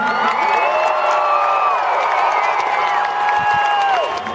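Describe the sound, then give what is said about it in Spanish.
An audience at a music video shoot claps and cheers in a steady, dense roar, with shrill whoops and whistle-like shouts rising above it from start to finish. “que dejaros el alma desde aquí, dar un aplauso”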